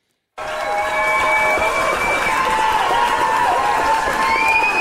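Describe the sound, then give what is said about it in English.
AI-generated audience noise: a dense, steady crowd roar with cheering bursts in after a brief silence and stays loud and even to the end. “I think if that's AI generated audience noise, awesome. And can we get some of that for our next live show recording? Oh, it sounds real. It does sound real.”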